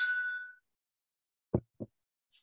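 A crystal Glencairn glass gives a single bright, ringing clink that decays over about half a second, followed after a pause by two soft thuds and a brief faint hiss.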